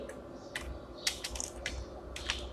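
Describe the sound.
Computer keyboard typing, a handful of quiet, sharp key clicks falling in irregular little bursts over a low steady hum.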